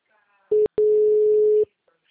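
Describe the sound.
A telephone tone after a call disconnects: a short beep, a brief gap, then a longer steady tone at one pitch, heard alone and fairly loud.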